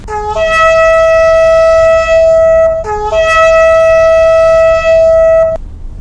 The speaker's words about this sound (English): That's the sound of the shofar, the horn blown during services for both Rosh Hashanah and Yom Kippur.